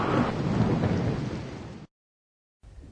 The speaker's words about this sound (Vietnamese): Cả khu vườn bị vùi dập tả tơi trong gió bão, trừ những loài hoa nhỏ bé nằm sát mặt đất như Violet.